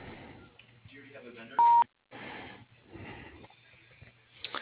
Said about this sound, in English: At the sound of the tone, please leave your name and your telephone number, and she will return your call as soon as possible.